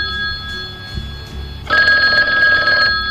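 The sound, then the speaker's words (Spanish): An old telephone bell rings loudly in a single sustained burst of rapid metallic trilling, lasting about a second, after a stretch of quieter low hum. “Este, por ejemplo, cuando sonaba, de hecho, no sabías quién te estaba llamando. Y no había nombre en la pantalla, tenías que cogerlo sin saber si era spam o no”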